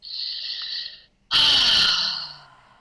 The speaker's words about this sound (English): One more time, big breath, this anger. This anger. Big deep breath.